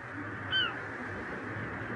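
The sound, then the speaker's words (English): A seagull gives a single short cry with a slightly falling pitch. The call is clear but brief, set against a quiet, low, steady background hum. “Those seagulls. Yeah, they're the tough ones. Never leave in winter.”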